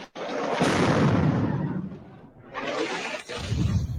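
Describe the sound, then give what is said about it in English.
Loud roaring blasts from 2,000-pound bombs exploding in Gaza: a dense rumble bursts in abruptly, holds heavy for over a second, ebbs, then surges back in a second wave. “These are 2,000-pound bombs, one of the most destructive munitions in Western military arsenals.”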